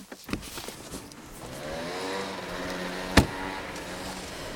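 A car's engine hums low and steady as the car is moved to a new parking spot. A single sharp knock sounds near the end.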